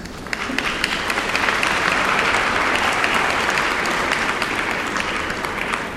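Audience applause welcomes a professor arriving to give a lecture on artificial intelligence. Dense, sustained clapping from many hands runs at a steady level for about six seconds, with no voices over it.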